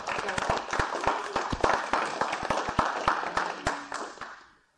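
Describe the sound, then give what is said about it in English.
Applause from a church audience welcoming visiting Wingate students and faculty: many sharp, separate claps in an uneven patter that stays lively, then thins and fades out near the end. “So special welcome to our Wingate students and faculties here. So why don't we give them a big hand?”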